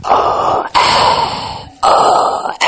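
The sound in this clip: A human voice imitates the mechanical breathing of a respirator worn by a part-machine character: long, loud, hoarse breaths in a steady alternating rhythm, each separated by a brief pause.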